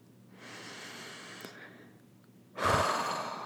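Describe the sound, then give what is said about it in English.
A deep breath at the close of a guided reflection: a soft, airy inhale lasting about a second, a short quiet pause, then a louder, rushing exhale. “Take one last breath.”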